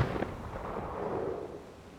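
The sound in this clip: A gunshot fired over shifting sand, striking the ground near a fallen girl: one booming blast at the start that decays into a long, low rumbling tail.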